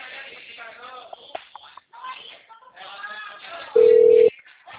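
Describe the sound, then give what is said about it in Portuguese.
Telephone line tone during a call transfer: a single loud, flat electronic beep of about half a second, heard after stretches of narrow telephone-quality talk. “é só continuar na linha que eu já estou te transferindo”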